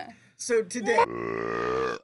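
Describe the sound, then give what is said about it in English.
A long, voiced burp from a person after chugging a drink. It opens with a few short guttural bursts, then stretches into a steady, low, droning belch lasting about a second. “Burp. Here, I'll chug some. I'll see if I can get us one.”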